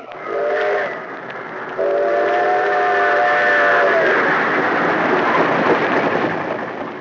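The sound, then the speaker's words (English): A train whistle blows in a short chord-like blast, then a longer sustained one, over the loud, steady rumble of a train rushing along the rails toward the Hudson River. “day and night, great trains rush toward the Hudson River,”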